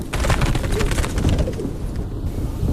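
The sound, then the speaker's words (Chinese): A small bird chirps a few times by a doorway, in short bright bursts over a steady, fairly loud background hiss that continues after the calls stop. “门口有只小鸟，叫了几声，飞走”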